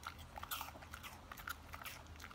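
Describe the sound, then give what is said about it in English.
A dog biting and crunching into an apple, with many quick, crisp crunches in an irregular rhythm, faint and alone. “That's my dog eating an apple.”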